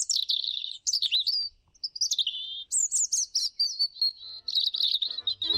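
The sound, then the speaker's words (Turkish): European robin singing: thin, high-pitched warbling phrases of quick whistles and trills, separated by brief pauses, clear and prominent with no other voices. “Kızıl Gerdan'ın şarkısıyla bitirelim.”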